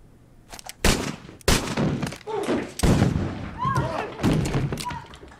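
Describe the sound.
Shotgun blasts from a film scene, a few loud booming shots spaced apart, with voices talking between and around them.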